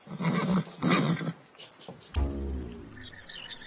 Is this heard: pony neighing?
yes